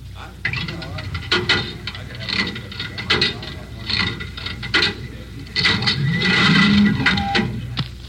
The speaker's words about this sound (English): Do I have some change for the cigarette machine? Thanks. Need any cigarettes, Joe?